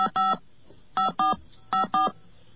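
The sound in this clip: Touch-tone dialing of a long-distance phone number: six crisp, loud keypad beeps in three quick pairs, alone against faint line noise.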